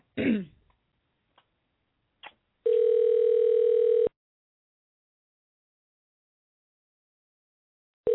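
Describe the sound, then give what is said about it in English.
A phone call goes through after a number is dialed. A throat clear and a couple of faint clicks come first, then one loud, steady ring tone lasting about a second and a half. A long silence follows before the next tone begins. “Okay, we're dialing.”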